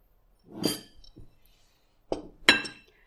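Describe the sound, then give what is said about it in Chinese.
Clinking of a utensil against a bowl while a mixture is stirred, a few sharp, bright clinks at irregular intervals with quiet gaps between, and no talking. “然后继续搅拌。好了，均匀之后呢，我们就放在一边备用。”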